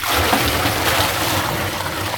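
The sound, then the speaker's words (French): Well water poured from a bucket into salvaged containers, a steady, fairly loud, continuous splashing pour that lasts about two seconds without a break. “Puis après, on la met dans des bidons qu'on a récupérés.”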